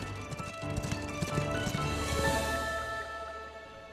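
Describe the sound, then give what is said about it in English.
Horses gallop down a steep hill at night, their hooves making a rapid, continuous clip-clop of overlapping hoofbeats that keeps up a fairly even loudness throughout, with no one speaking. “They gallop down a steep hill, a canopy of stars in the velvety blue night sky.”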